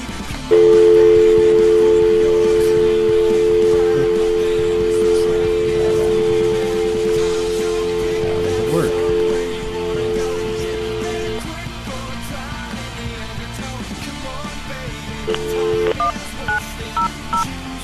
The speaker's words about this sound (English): let's get this started. Let's dial a sex line and see what happens.